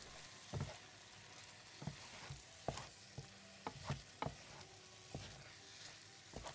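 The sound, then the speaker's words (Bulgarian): A spoon stirs softened fruit cooked with sugar in a pan on the stove: faint soft sizzling under many irregular scrapes and taps against the pan, with no talk. “Обърквам добре.”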